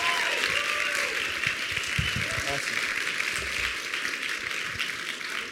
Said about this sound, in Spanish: Give the Lord a mighty hand of praise. Dale al Señor un gran aplauso.